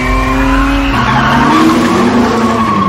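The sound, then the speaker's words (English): A new sports car accelerates hard on a test drive with its tires squealing: a loud, sustained, tonal screech over engine roar for the whole moment, with the pitch shifting partway through and no voices. “he takes him for a little test drive in their new sports car”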